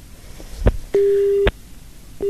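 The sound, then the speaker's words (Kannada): Busy tone on a phone line after a caller is cut off: a low thump, then one steady beep lasting about half a second and ending in a click, with the next beep starting just as the sound ends. “ಕರೆ ಕಡಿತ ಆಗಿದೆ.”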